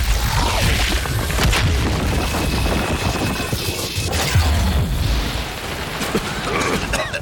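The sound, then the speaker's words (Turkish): Loud explosive rumbling and crashing as a back wall is blown up, with dense, noisy booms and clattering debris that continue without pause throughout. “arka duvarı patlat. Hemen.”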